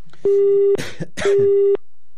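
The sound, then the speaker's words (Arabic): Telephone busy tone after a call has been cut off: two steady, loud beeping tones of equal pitch, each about half a second long, separated by a short stretch of noisy rustling. “قطع التليفون.”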